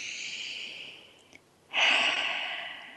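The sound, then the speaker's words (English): A deep breath drawn in during a guided breathing exercise: after a fainter breathy sound and a short pause, a loud, airy inhale begins and carries on to the end. “So breathe that in again.”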